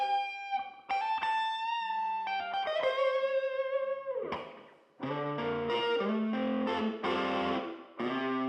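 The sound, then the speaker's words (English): Crunchy distorted electric guitar, miked in a tiled hallway outside a cracked studio door, rings out in sustained notes, then loud strummed chords, with a natural reverb tail after each. “also put one outside with the studio door cracked in the tile hallway, and we got this really cool natural ambient reverb sound.”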